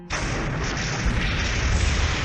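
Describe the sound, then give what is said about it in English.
A ship explodes as it flies inward during a sci-fi role-playing game. The blast is a loud, sustained roaring rumble lasting about two seconds, with no voices over it. “And it, as it flies inward, it just completely explodes.”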